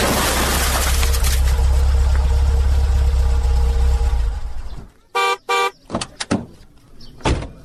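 A car engine rumbles loud and steady, then cuts out and is followed by two short horn toots and a few more brief sharp sounds.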